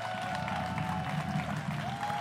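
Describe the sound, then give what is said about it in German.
Audience clapping after a call for renewed applause at a union rally, a steady dense wash of claps sustained throughout with crowd murmur underneath. “Könnt ruhig noch mal klatschen.”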